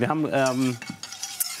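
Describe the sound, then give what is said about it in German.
Spoon scraping in a pan as flour is stirred into foamed, lightly browned nut butter: a brief squeaky scrape followed by softer, uneven scraping and light clinks. “Ich habe hier schon mal ein bisschen Butter aufschäumen lassen und auch so ganz leicht rösten lassen. Da spricht man ja von Nussbutter. Und da rein habe ich jetzt das Mehl eingerührt.”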